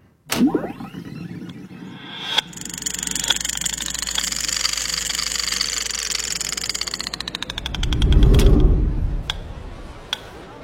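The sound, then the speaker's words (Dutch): A time-machine start-up sound effect: a sudden whoosh, then a steady mechanical whir with ticking. The ticks speed up into rapid clicks, a deep rumbling surge builds, and a few last ticks follow. “Het is echt een machine. Dus ik zou zeggen, start de tijdmachine.”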